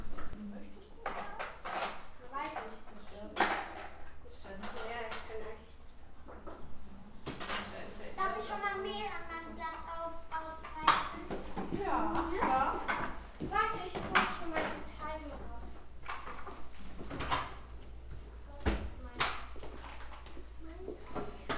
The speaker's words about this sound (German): Also wir tun gerade Plätzchen machen. Ja, es hört sich ein bisschen komisch an, weil es jetzt Sommer ist, aber wir schneiden Blümchen aus und so.